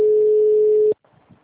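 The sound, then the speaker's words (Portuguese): Ringback tone while placing a phone call: one steady, mid-pitched electronic tone lasting about a second, then cut off to near silence with faint line noise. “Tô rapidinho, cara. Tô ligando só pra ele, deixa.”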